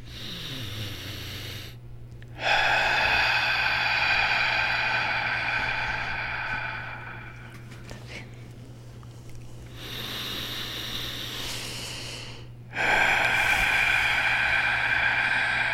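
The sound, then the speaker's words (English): Deep breaths drawn in through the nose and released during a breathing exercise, with long, airy inhales and exhales rising and fading in a slow rhythm over a steady low hum. “And as we breathe in through the nose, let's take in the love of life. And as we exhale, let's let all the stress go. All right, three of them, all the way in through the nose.”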